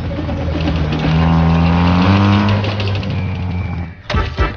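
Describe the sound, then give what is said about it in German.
A truck loaded with melons drives off, its loud, steady engine rumble rising slightly in pitch before ending in a short, rough burst. “Das sogenannte Taxi war ein Laster, der Melonen transportierte. Schnell sprang sie auf das vorbeifahrende Fahrzeug auf. Der Laster fuhr zu einem Marktplatz.”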